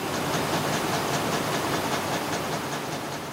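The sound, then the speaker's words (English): Cotton spinning machines, dozens of them in long rows, wind white thread onto big bobbins. They make a dense, steady whirring roar with a fast, regular ticking layered over it, and no voices. “We are visiting the Dolce Vita cotton spinning mill, where huge machinery winds white threads into big bobbins. There are dozens of machines in what seem like endless rows.”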